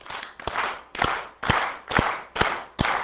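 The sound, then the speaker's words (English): An audience claps together in unison, giving a steady beat of about seven sharp, loud claps roughly two per second, each with a low thump and no talk. “I'd like to see if we can all clap in unison.”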